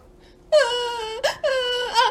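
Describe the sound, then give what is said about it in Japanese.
Crying in two drawn-out, high, wailing sobs, loud and tonal, separated by a short catch of breath, with a quiet lead-in before the first wail. “なんで泣いてんの。”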